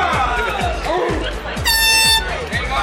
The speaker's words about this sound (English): the guys drinking and tooting their horn